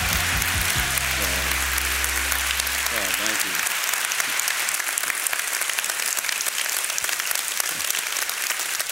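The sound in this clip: A church audience gives loud, continuous applause to welcome a guest preacher, an unbroken wash of clapping lasting about nine seconds, with tonal sounds beneath it in the opening seconds.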